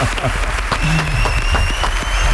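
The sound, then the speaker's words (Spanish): Audience applause at a live show, loud, dense clapping running continuously from start to finish with no pauses. “Mira al público cómo se anima. ¡Ole! Muy bien.”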